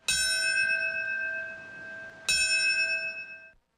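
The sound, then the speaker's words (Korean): Two loud strikes of a memorial bell ring out at a September 11 commemoration ceremony, timed to the moment the first airliner hit. Each strike leaves a long, clear, steady tone that slowly fades. “오전 8시 46분, 첫 여객기가 건물에 충돌했던 시각에 맞춰 종소리가 울려 퍼집니다.”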